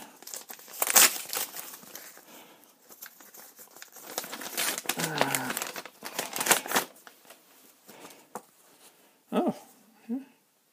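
Papery crinkling and rustling as a Christmas card is pulled out and opened, with uneven bursts of crackle throughout and a few sharper, louder rustles near the end.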